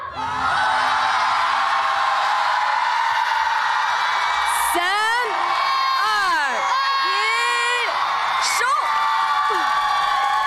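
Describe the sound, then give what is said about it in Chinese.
Audience shouting and cheering for a dance team at a stage competition, a loud unbroken roar of yells and whoops, with high voice sweeps rising and falling through the middle. “如果大家喜欢我们闪耀队，让我听一听你们的呐喊声。”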